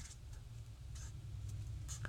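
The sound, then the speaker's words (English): Pen writing names on paper: faint, scratchy strokes in short irregular bursts over a low hum. “By the way, I'm writing these down, so don't don't mind the pause.”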